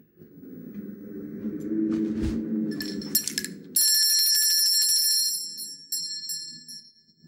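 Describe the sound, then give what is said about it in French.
A small hand bell rings in a rapid, sustained jingle after a low rumbling stretch, its bright metallic tone fading away briefly before starting again near the end. “Ils n'entendent point. Et ma sonnette ne fait pas assez de bruit.”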